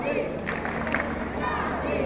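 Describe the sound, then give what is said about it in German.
Faint crowd chanting during a mass street demonstration in Paris: a dense, blended wash of many voices with a few louder swells rising from the murmur. “Während ein paar Millionen Leute Charlie skandieren und klatschen”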